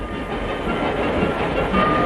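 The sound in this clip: A passenger train running on rails: a loud, steady rolling rumble with a hissing wash, continuous throughout and without talk.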